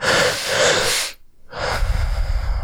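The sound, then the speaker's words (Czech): A person demonstrates a double inhale breath: two loud, breathy, hissing intakes of air, the first about a second long, then a short pause and a second, slightly rougher one, with no talk. “jednou až dvakrát za pět minut máme dvojitý nádech. Něco jako takhle.”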